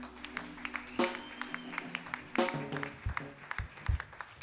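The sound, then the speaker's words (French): A church audience applauds during a Sunday worship service: faint scattered clapping with sharp irregular claps and a few louder swells, mixed with soft voices. “Est-ce que nous pouvons acclamer pour Jésus?”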